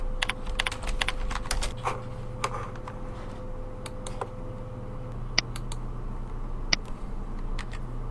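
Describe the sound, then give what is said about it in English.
Keys clatter on a computer keyboard as a title is typed into a new class blog entry, many quick irregular clicking strokes in bursts with a few sharper taps, over a faint steady low hum. “Next, give our entry a title and press Continue.”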